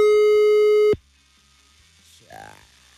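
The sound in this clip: A telephone ringing tone on an unanswered call: one loud, steady, high beep that cuts off abruptly, followed by near silence.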